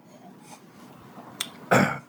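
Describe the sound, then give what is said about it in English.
A person with a troubled throat lets out a single short, harsh cough near the end. A faint brief throat sound comes just before it, against an otherwise quiet background. “pardon me for coughing.”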